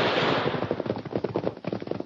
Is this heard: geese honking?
no